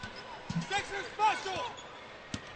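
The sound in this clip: A basketball is dribbled on the court during a women's game, with a few sharp bounces under continuous play-by-play commentary.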